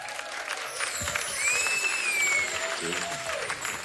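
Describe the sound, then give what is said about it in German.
Crowd applause at a concert: continuous clapping with a sharp, high whistle rising out of it midway, and a voice speaking near the end. “Leute, können wir mal Applaus für meinen Bruder Kick.”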